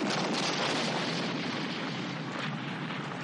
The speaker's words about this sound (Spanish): La granada estalla cerca del tanque, el cual les dispara pero no acierta.